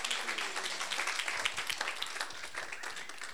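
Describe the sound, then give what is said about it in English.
An audience applauds to welcome a pastor to speak, with dense, steady clapping at an even level from start to finish. “let's go ahead and invite Pastor John up and let's give him a warm welcome.”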